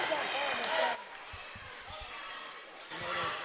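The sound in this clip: A basketball bounces on the court during a high school game between Lincoln County and Columbia. Several quick, dull dribbles come in a steady rhythm under play-by-play talk and faint crowd noise.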